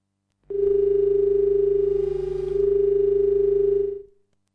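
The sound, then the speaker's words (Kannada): A telephone line tone sounds as a radio phone-in call connects: one steady, continuous hum-like tone lasting about three and a half seconds, alone and fairly loud, dipping slightly midway before cutting off. “ಬನ್ನಿ, ಮೊದಲನೇ ಕರೆ ಸಿದ್ಧವಾಗಿದೆ, ಎಲ್ಲಿ ಮತ್ತು ಯಾರು ಅಂತ ನೋಡೋಣ.”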